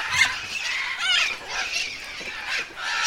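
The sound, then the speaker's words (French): Harsh squawking from cliff-nesting parrots at a zoo, one coming to peck at a keeper's boot during feeding. A few raspy, high-pitched calls rise above a continuous chatter of birds. “Simplement, il y a un perroquet qui vient goûter à la botte.”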